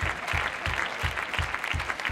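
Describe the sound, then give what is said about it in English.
A church audience claps hands in a steady rhythm, with many even, evenly spaced beats of massed applause. No talk stands out over the clapping. “Come on, clap your hands unto him and bless you.”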